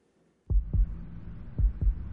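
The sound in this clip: A heartbeat sound effect of two deep, booming double thumps, each a lub-dub pair, spaced evenly after a near-silent start, with a low hum carrying between the beats.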